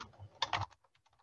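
Typing on a computer keyboard while filling in an online entry form: a short run of keystrokes, a few louder clacks followed by several soft, spaced taps.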